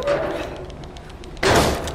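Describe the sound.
A video game character falls and lands with one loud, heavy thud-like burst that dies away over about half a second, after a stretch of quieter game sounds.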